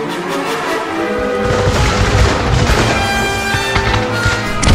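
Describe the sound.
Artillery fire during a battle, a dense, loud rumble of overlapping booms and blasts that runs for nearly five seconds without a break.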